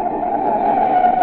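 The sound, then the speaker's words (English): Car brakes jammed on in an emergency stop give a steady, sustained squeal that holds one pitch and level for just over a second, heard alone. “Recognize it? That's the sound of a car as a desperate motorist has jammed on the brakes in an emergency.”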